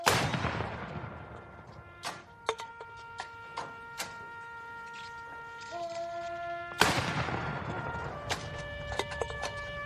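Cannon salute fired at a national cemetery ceremony honouring fallen soldiers: two heavy booms several seconds apart, each with a long rumbling decay, with a few fainter sharp cracks in between.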